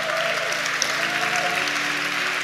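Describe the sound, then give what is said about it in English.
A church audience applauds and makes noise, a steady wash of clapping and crowd sound holding at an even level throughout. “Anybody praying for a big dream or a big goal or something they want God to do, make some noise if you're praying for that right now.”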